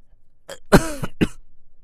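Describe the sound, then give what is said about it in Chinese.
Three short coughs with a throat-clearing rasp, the middle one loudest and longest, alone against silence. “叶修咳嗽。”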